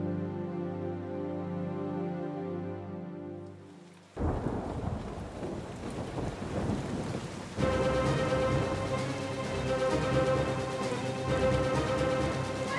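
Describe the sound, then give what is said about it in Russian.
Heavy rain pours onto a roof at night, a dense, steady hiss that starts abruptly after a few seconds of sustained tones, with louder tonal sound returning over the downpour partway through. “Ночь. Ливень стекает по крыше.”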